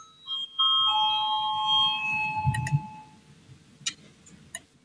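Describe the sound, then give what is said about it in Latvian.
A bell rings in a parliament chamber before a vote as several clear chime tones entering one after another. They ring for about three seconds and fade, with a few soft knocks and rustles underneath. “Deputāti nevēlas debatēt, lūdzu zvanu, balsosim par otro deputāta Valaiņa priekšlikumu”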